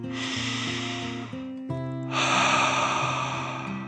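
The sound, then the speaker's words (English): A storyteller performs a dragon's deep breath: one long airy inhale, a brief pause, then a fuller, louder exhale, set over soft sustained musical tones. “The dragon smiled and took another deep dragon breath in and out.”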